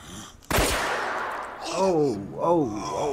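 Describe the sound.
A single sharp gunshot cracks out loudly, its blast trailing off over about a second, followed by a voice giving gasping, rising exclamations.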